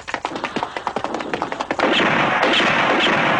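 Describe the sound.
Gunfire from a sniper's rifle aimed at soldiers crossing a street in a wartime scene: many sharp shots in rapid succession, then a loud, continuous roar that holds to the end.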